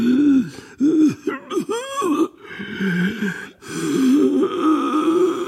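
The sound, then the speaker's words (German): A man groans and moans hoarsely and inarticulately in a series of rough, wavering vocal bursts whose pitch rises and falls, ending in a longer drawn-out moan, loud and without words. “Und währenddessen hört man Gottvater unartikuliert rau stöhnen und jammern.”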